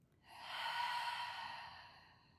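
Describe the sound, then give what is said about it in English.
A long, soft breath taken during a guided yoga breathing exercise swells to a broad airy hiss, then slowly fades, heard alone. “A nice slow breath in, and a big breath out.”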